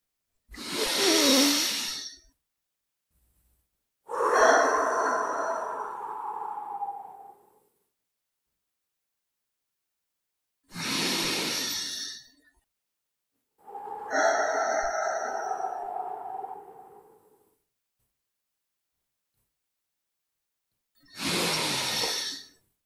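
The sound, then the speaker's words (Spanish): Deep, slow breathing at the start of a guided prayer meditation: five separate breath sounds, short hissy inhales alternating with longer, sighing exhales, each separated by a silent pause. “Vamos primero a respirar 3 veces como siempre.”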